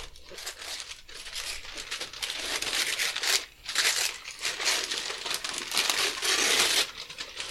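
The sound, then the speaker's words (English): Gift wrapping paper tearing and crinkling as a loosely folded wrap is ripped open. The papery crackle is loud and nearly continuous, with one short lull midway. “And I was like, fuck it, I'm not wrapping this again. That's okay. It makes it easy to open. Yes. Ready, set, destruction noises.”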